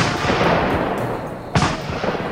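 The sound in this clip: A shotgun loaded with buckshot fires once. A single sharp, loud blast cuts through steady rushing noise.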